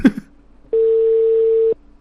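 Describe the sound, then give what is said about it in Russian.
A ringback tone sounds while a debt collector's number is being called: one steady, even-pitched beep lasting about a second. A brief burst of noise comes before it. “давайте сейчас еще этому говну наберу. Надо, чтобы он телефон уже наконец-то отключил.”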